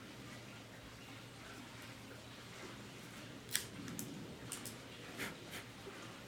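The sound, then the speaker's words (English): Faint crisp snipping clicks, a few spread across the second half, as a Macanudo Inspirado Orange Label cigar is V-cut with a Cassetti multi-cutter, over a low steady hiss. “Now, I'm going to use my Cassetti multi-cutter in the V-cut.”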